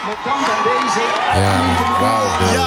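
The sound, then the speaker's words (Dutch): A crowd shouts, whoops and cheers in celebration of a first point at the World Cup, a loud, continuous, jubilant roar of many voices that stays at full strength throughout. “wordt geschreeuwd. En iedereen is blij. Ik zie mensen schreeuwen.”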